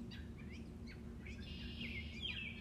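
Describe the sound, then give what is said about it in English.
Birds chirp on a morning at a New Jersey campground. Short, faint, high tweets and one longer trill sound over a steady low hum. “Do you hear the birds chirping?”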